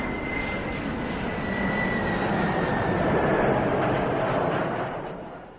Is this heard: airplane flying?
yes